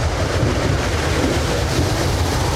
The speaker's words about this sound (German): Richtiger Sturm.